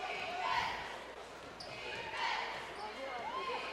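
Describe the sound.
A basketball is dribbled on the court during a high school girls' game, Kearney against Odessa, its bounces set under steady crowd murmur and voices.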